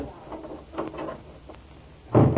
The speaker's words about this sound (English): Open the door. Don't lock me in the dark alone. Don't lock me in alone.